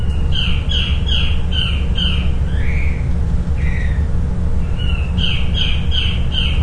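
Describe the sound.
Harsh, repeated squawking calls of a Guam kingfisher, a bird extinct in the wild, come in a rapid series, then a couple of drawn-out calls, then another quick series, all over a steady low rumble.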